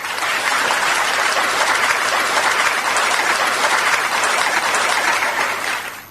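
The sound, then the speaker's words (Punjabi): Recorded applause plays for a quiz winner on a program: a dense, even burst of clapping that holds steady for several seconds, then tapers off at the end. “ਤੋ ਤਾੜੀਆਂ ਪਹਿਲਾਂ ਤਾਂ ਮੈਂ ਤੁਹਾਡੇ ਲਈ ਵਜਾਉਣਾ ਚਾਹੂੰਗੀ programme ਦੇ ਵਿੱਚ।”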